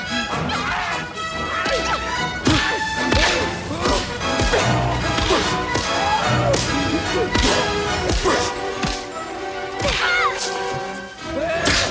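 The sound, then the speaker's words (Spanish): Heavy punches and smacks in a fight between Indiana and a giant, many sharp thuds and whacks landing over loud, busy orchestral music that continues throughout. “Animados por Willy, Indiana sacude puñetazos al gigantón y Dapón al maharajá.”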